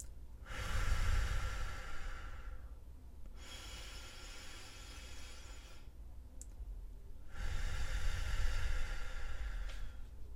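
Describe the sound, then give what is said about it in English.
Deep, slow breathing during a calm guided relaxation: two long, soft, airy breaths, each lasting a couple of seconds, separated by a quiet pause, faint and alone without talk. “take a very deep, nourishing breath or two with me.”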